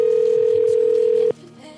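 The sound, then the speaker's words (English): A telephone voicemail tone, one long steady beep at a constant pitch that cuts off with a click, followed by quiet line noise. “God, the voicemails are piling in now.”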